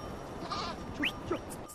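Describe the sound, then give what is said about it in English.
A flock of shaggy goats bleats in the mountains of Chitral as a herdsman moves them off. A few short, nasal bleats rise faintly above a steady background hiss. “herdsman moves off his flock of shaggy goats.”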